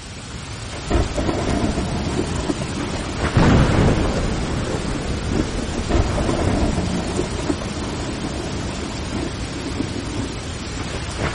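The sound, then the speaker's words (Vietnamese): Heavy rain pours down outdoors with thunder, after a sudden downpour near a school: a steady, loud wash of rainfall throughout, with a swelling rumble of thunder a few seconds in. “Bên ngoài đột nhiên mưa to, còn có sấm sét nữa.”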